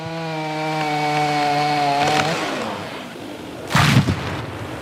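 A chainsaw cuts branches from an oak tree felled for Notre Dame. Its steady, buzzing engine drone runs for about two seconds and then stops, and a loud, brief crash follows.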